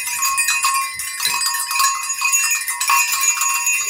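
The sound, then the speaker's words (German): Small herd bells jingle, six bells of different sizes strung together from a tiny top bell to a large bottom one. They ring continuously with bright, overlapping metallic tones and repeated light clanks. “das sind wahrscheinlich die Glöckchen von einer kleinen Herde.”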